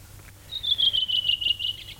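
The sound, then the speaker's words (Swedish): A redwing sings energetically: a rapid run of many short, high chirping notes, each repeated quickly over about a second and a half, the line drifting slightly lower in pitch as it goes. “Ja, så sitter den där en rödvingetrast och sjunger energiskt, frenetiskt. Sjunger och sjunger och sjunger.”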